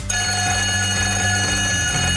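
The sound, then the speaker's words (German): A radio station's break bell rings between songs as an electric, metallic ring. It holds steady and loud for about two seconds, with a rapid rattling pulse underneath. “Da wird es zwischen zwei Liedern eine Pausenglocke geben. Die klingt so.”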